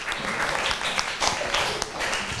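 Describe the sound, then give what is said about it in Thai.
Applause for a group of students: dense, steady clapping from many hands, fairly loud and continuous throughout, with no clear break. “ปรบมือให้กลุ่มที่4หน่อย”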